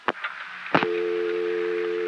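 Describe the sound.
A telephone network vacant code tone from an exchange with a peculiarly wired director. Two sharp clicks come first, followed by a steady, unbroken multi-pitched tone that holds to the end.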